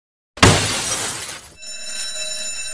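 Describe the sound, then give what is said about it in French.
A glass display case smashed: a loud, sudden crash of breaking glass bursts out of silence and rushes on for about a second, then gives way to a bright, sustained ringing. “Le décelling d'honneur, conservé dans les archives de Schkelmazar depuis des années au travers d'une simple vitrine. Ah, c'est presque dommage de la casser.”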